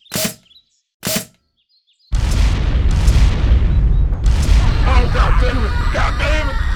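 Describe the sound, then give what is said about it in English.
Grenades launched and exploding during a zombie attack: two short, sharp bursts, then a sudden loud, sustained roar of blasts with several further heavy booms. “Take cover, boys. Big Mama's launching some grenades.”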